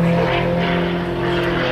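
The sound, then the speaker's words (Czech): Steady propeller drone from a sports airplane flying aerobatics over an airfield in Letňany, a continuous engine hum with strong low harmonics that holds a constant loudness throughout. “Jak odpoledne na letišti v Letňanech začalo, tak také skončilo akrobatickými kousky Martina Šonky v jeho sportovním letadle.”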